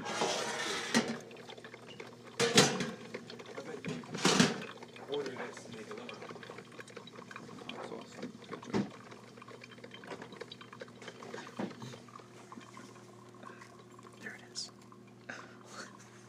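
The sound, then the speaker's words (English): Liquid pours and bubbles from a coffee pot. A few louder splashy gurgles come early, then a quieter, steady trickle continues, with soft voices at times. “and now, the sound of the coffee pot.”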